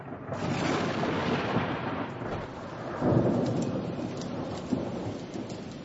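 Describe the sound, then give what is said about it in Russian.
Thunder rolls through a steady, heavy downpour in a nighttime storm; dense rain hiss runs throughout, with a louder thunder rumble swelling midway and no voices. “Сверкают молнии. И дождь, как из ведра.”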